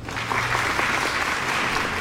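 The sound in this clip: A studio audience applauds a guest who has just been introduced on a talk show. Dense, steady clapping keeps an even level for the full two seconds.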